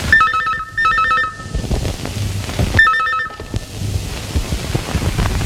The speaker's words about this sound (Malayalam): വിനയന് ഒരു phone call വന്നു.